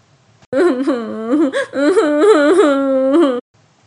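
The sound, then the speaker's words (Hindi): A girl cries loudly in wavering, high wailing sobs that rise and fall, one long outburst with a brief catch midway before stopping abruptly into silence. “भैया अम्मा बापू बहुत मारेंगे वो जोर जोर से रोने लगी”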